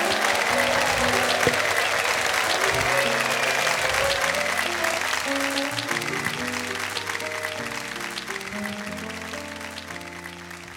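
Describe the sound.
Audience applause welcoming a singer onto the stage at a live show: dense, steady clapping that carries through the whole stretch and eases slightly toward the end, with low held musical notes underneath.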